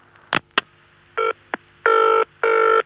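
A telephone rings as a call is put through: two sharp clicks, a short ring burst, another click, then two longer buzzing rings.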